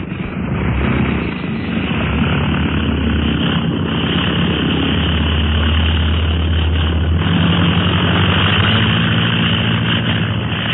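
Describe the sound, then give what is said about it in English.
Loud, steady engine roar of a heavily loaded aircraft during takeoff, a continuous droning with a throbbing propeller texture that holds throughout, with no voices. “In the air. Wasn't that a swell takeoff”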